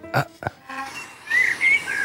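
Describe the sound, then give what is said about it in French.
Birds chirp at the opening of a music piece: bright, high chirping trills come in after about a second and repeat in short bursts. A couple of soft thumps sound just before them. “Ça, c'est le début, c'est ça? Je connais, c'est des oiseaux.”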